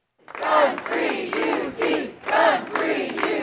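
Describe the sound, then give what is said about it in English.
Students and faculty at a campus demonstration against a campus carry law chant together in loud, rhythmic bursts. Their voices surge and dip in repeated phrases with short gaps between them. “This was the sound of one demonstration on campus earlier this week.”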